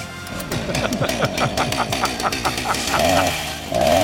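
A chainsaw engine buzzes with a rough, rapidly pulsing drone, holding steady before growing louder near the end.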